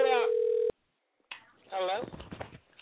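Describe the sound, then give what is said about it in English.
Telephone ringing on a call line: a single steady electronic tone cuts off abruptly, then silence, then a voice speaks. “I don't know who's ringing. Somebody's phone is ringing on the line.”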